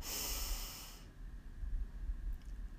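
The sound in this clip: Deep belly breathing during a guided breathing exercise: a long, airy, hissing inhale lasting about a second, then quiet with only a faint low rumble.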